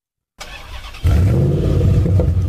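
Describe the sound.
A car pulls away, its low engine rumble starting moderately, then jumping louder after a moment and holding a steady, slightly rising drone to the end.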